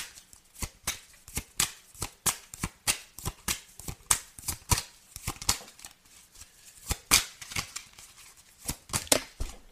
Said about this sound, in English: These cards keep on falling.